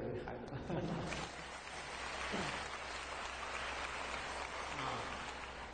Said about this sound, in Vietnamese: Chúng ta vỗ tay ủng hộ cho những bạn nhỏ.